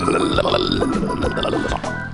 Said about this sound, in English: Belch. Belch. It was like,